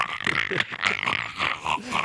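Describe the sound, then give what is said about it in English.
A voice imitating the Predator creature clearing its throat: a harsh, raspy, growling rumble broken into several rough bursts, with no words. “You just sounded like Predator trying to clear its throat.”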